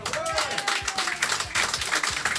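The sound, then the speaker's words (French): Audience applause at the Blues Café as a band is called onto the stage: dense, continuous clapping from many hands, steady and moderately loud throughout the short stretch. “Mesdames et messieurs, je vous demande d'applaudir sur la scène du Blues Café.”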